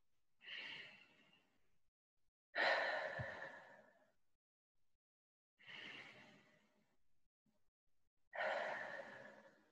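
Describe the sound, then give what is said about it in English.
Slow, deliberate breathing, drawing air in through the nose and releasing it out through the mouth: four long, breathy, sigh-like passes, evenly spaced, each fading before the next, with quiet pauses between. “you're going to take a inhale in through your nose with intention and a slow, nice release out through your mouth.”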